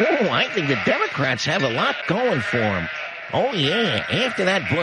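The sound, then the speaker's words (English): Sheep-like bleating rings throughout in wavering, quavering tones, as a voice talks in the same warbling bleat, imitating a sheep. “Sheep, that's for every time in a Savage. This is the sound of the average voter in America.”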